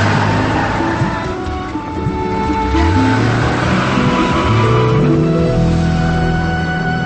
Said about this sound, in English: They drive off.